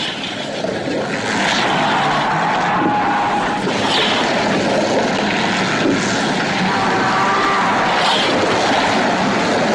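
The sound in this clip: Toy racing-game cars speed around a track with a continuous buzzing, whirring whine that swells in a few passing surges over the steady drone.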